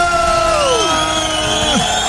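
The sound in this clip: A studio audience cheers and whoops, a sustained roar of voices with high whoops gliding downward in pitch over it.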